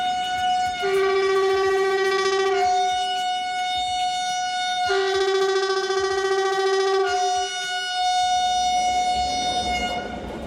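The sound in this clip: A train horn sounds as a train, back in running order after ten years with its grease pots, wheels and bearings checked, arrives along platform track 2. The loud two-tone horn alternates low and high notes twice over steady rail rumble.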